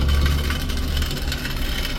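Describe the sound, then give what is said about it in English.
Harsh, continuous rumbling grind of a mountain bike ridden down a street in Cairns, Australia, its rear wheel a bare rim with no tyre; loud and steady, with a deep low drone under a rough, noisy texture. “a guy riding down the street on a mountain bike with a rear wheel that no longer has a tyre on it”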